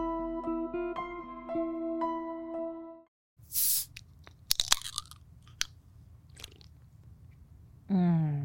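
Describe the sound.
A can of Olipop soda cracks open with a sharp snap and a loud fizzing hiss, followed by a few faint clicks. Tonal music plays before it, then there is a short silence.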